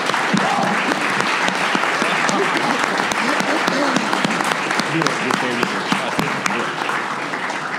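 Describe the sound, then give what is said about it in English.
An audience at a panel discussion applauds the panelists with sustained clapping. The dense, even applause runs for several seconds and eases only slightly toward the end. “And let's give it up for our panelists here.”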